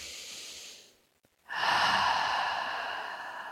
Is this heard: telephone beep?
no